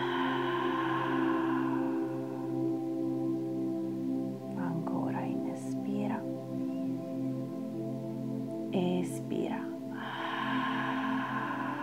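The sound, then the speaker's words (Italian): Breathy exhales pushed out through the mouth during a breathing exercise, a couple of soft airy bursts rising over a steady, sustained musical drone. “espira fuori l'aria dalla bocca”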